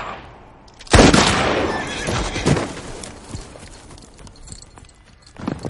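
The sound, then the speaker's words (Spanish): Horse hooves clip-clopping away in a western setting, opening with a loud whinny, then a run of quick hoofbeats that gradually fade in loudness. “El caballo se aleja.”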